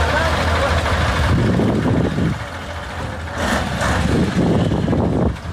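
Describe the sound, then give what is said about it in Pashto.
Heavy trucks rumble with a deep, steady engine drone on the flood-damaged, muddy Uruzgan–Kandahar highway, where they help small cars through ruts and out of the mud. The noise stays loud throughout, dips briefly midway, and indistinct voices mix in. “دا د روزګان او کندهار د لوی لارې پر سر غټ موټرونه دي چې د کوچني موټرو سره مرسته کوي ترڅو له لوړو او ژورو یې تیر کړي او له خټو یې راوباسي.”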